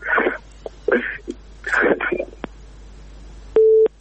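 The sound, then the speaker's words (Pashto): A phone-in caller's line is cut off and a single short, steady busy-signal tone sounds. Before it comes a stretch of speech, then a couple of faint clicks. “اردونکو اړیکه شلیدلې ده”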